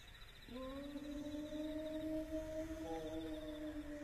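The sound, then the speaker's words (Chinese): A person imitating a wolf howl: one long, sustained, tonal howl that swoops upward at the start and then holds steady, faint over a noisy background. “爷爷，这是啥东西在叫？ 狼，是狼嚎。 这地方还有狼？ 要有狼就好喽，这是人学的狼叫。”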